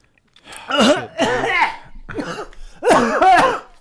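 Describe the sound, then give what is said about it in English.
Someone coughs after choking on Diet Coke: a few strained, voiced coughing bursts in quick succession, with one weaker burst between the louder ones. “Excuse me. I choked on Diet Coke.”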